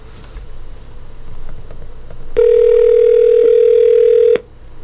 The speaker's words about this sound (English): We have a new phone system, so it's interesting here to see how this is going to work. So here we go. I've got the number in. We're dialing the number